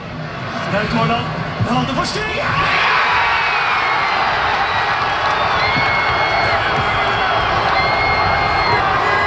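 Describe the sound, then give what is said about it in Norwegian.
Loud crowd cheering and whooping in Porsgrunn as Norway scores against Brazil: a dense, sustained roar of many voices that swells after the first couple of seconds and stays high to the end. “Det mange som har hatt en lang natt og feiret seieren til Norge mot Brasil i går kveld og kanskje utover nattestimene. Slik hørtes det ut i Porsgrunn når Norge skåret.”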